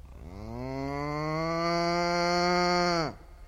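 Cow mooing: one long, loud, low moo swells at the start, holds a steady tone for about three seconds, then stops abruptly.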